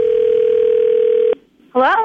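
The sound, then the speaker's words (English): A steady telephone dial tone holds for over a second while a radio show calls a listener, then cuts off; after a short silence a voice briefly answers. “Let's see if we can get Gina on the phone now.”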